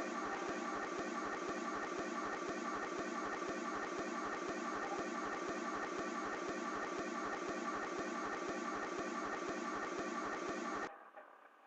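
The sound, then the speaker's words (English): A rented electric generator runs with a steady mechanical drone and a rapid, regular low pulsing, then cuts off abruptly near the end. “That's the generator we had to rent. So we have some electricity.”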